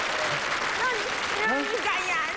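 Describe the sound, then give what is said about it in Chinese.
Audience applause at a gathering, as the crowd welcomes a man up to give his acceptance remarks: dense, even clapping that holds steady for the whole stretch, with a few voices calling out over it. “接下来我提议，让我们今天所有到场的好朋友，伸出您的双可爱的双手，欢迎大叔做获选感言。”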